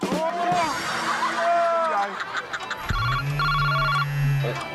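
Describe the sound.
A telephone rings with an incoming call, a bright electronic ringtone of repeating melodic tones that plays continuously over the whole stretch.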